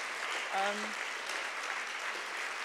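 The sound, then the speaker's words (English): Applause from an audience at a talk, thanking the people who made the teas: steady, dense clapping that fills the whole clip at an even level, with a brief voice near the start. “can we vote a round of applause for the people who did the teas, for Edward, Ian, Liz,”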